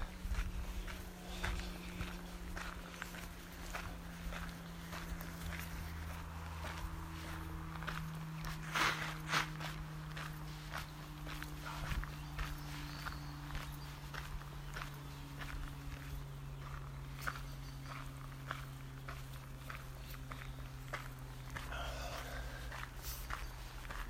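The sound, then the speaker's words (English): Footsteps walk past in a steady series of many fairly faint steps, with a low continuous hum beneath them. “just walking past the dad and his kid.”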